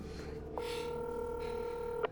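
Telephone keypad tone as someone dials a phone that will not connect: a single steady electronic tone sounds for about one and a half seconds over a faint background hum, ending with a brief click.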